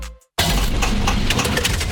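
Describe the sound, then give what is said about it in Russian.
A car engine dying from corrosion and overheating bursts in after a brief silence as a loud, harsh, continuous clattering roar with rapid knocking pulses throughout. “Слышали? Так прощается двигатель. Коррозия, перегрев и привет, капиталка.”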